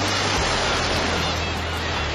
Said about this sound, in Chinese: 有多久没有听到大海的涛声了？